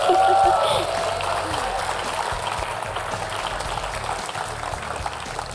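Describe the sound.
Audience applause for a young singer at a children's singing competition: dense, steady clapping that is loudest at the start and then holds level, with a voice talking over it.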